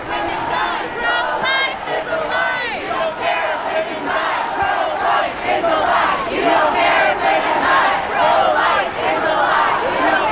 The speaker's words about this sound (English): You can hear the chants in the background as the crowd begins to move forward. There are still cops attempting to blockade, but it appears the crowd has been able to find momentum and actually move forward.